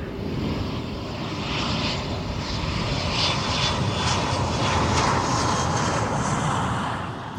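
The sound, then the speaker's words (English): Steady, loud roar of an airliner's engines heard from inside the cabin during landing. The droning rush holds at an even level throughout, with no voices. “At this time, we'd like to ask our flight attendants to please take their seats for landing.”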